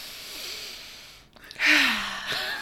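A person takes a deep breath: a long airy inhale, then a louder voiced sighing exhale whose low tone sinks slightly as it fades.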